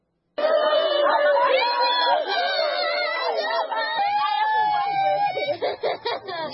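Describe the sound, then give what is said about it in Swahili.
A crowd of villagers in Mukoko village, Beni territory, North Kivu, DR Congo, after a deadly attack: many overlapping raised voices shout and call out together, loud and continuous, with breaks opening up near the end. “Hao ni wananchi katika kijiji cha Mukoko ambao wilayani Beni hapa Kivu Kaskazini”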